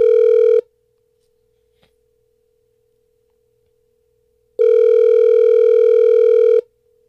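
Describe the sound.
Telephone ringback tone as radio hosts place a call: a short steady burst at the start, a long silent gap, then one loud ring lasting about two seconds, with a faint steady tone continuing underneath between rings.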